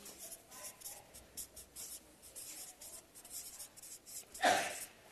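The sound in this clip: Writing by hand: many soft, scratchy strokes in quick, irregular bursts, faint throughout, with one louder rubbing swish near the end.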